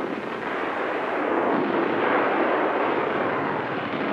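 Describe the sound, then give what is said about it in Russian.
Artillery shelling the opposite bank of the Dnieper River during a battle near Dnipropetrovsk is heard as a dense, continuous roaring rumble that stays steady throughout, with no separate blasts standing out. “Артиллерия обстреливает противоположный берег Днепра.”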